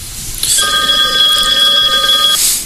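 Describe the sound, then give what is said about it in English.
A telephone rings for an incoming caller. One sustained, bright electronic ring made of several steady tones sounds over a constant background hiss, then stops. “Hey, we got a caller. Hey, all right. Ding, ding.”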